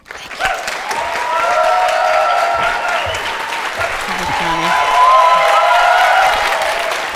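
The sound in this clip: Loud applause and cheering from an audience welcoming a performer: dense clapping with whoops and shouts that starts abruptly, holds strongly and swells again around the fifth second before easing slightly.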